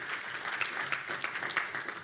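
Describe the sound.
Applause from a church audience, a steady, dense clatter of many hands clapping throughout, moderately quiet and without talk.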